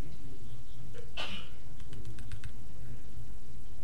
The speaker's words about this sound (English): And I'm going to log in. And I typed in the wrong password.